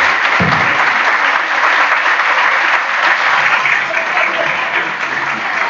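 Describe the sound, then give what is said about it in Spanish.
Applause at the close of a meeting: a steady, dense clatter of many hands clapping that holds evenly loud through the whole stretch, with no talk over it. “me parece un gran aplauso para Mario, para los compañeros.”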